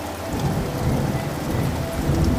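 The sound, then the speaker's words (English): Steady rain during a thunderstorm by the sea forms a dense, continuous hiss with low rumbling underneath, even in loudness throughout, with no voices. “watching the waves crash and the lightning in the distance”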